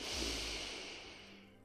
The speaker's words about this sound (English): Let's again breathe in fully and deeply,